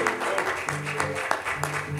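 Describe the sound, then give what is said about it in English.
A church audience claps their hands during a service. The clapping is fairly quiet, with crisp claps landing at a roughly regular pace over a low background of other sound. “Let's give the Lord a hand clap.”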